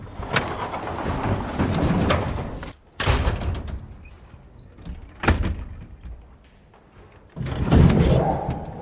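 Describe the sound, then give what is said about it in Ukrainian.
A heavy sliding door on a train car is shoved shut, giving a few loud scraping, rumbling bursts and thuds with quieter stretches between them. “Засунув важкі двері і пішов, намацуючи палицею дорогу.”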